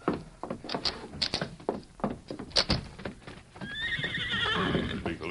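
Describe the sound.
Horses clip-clop off as riders set out along railroad tracks: a quick run of hoofbeats, then a loud, shrill whinny near the end.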